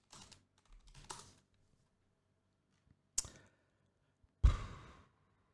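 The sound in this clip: Someone types on a computer keyboard in a few faint, short bursts of key clicks separated by quiet gaps. A breathy sigh follows near the end.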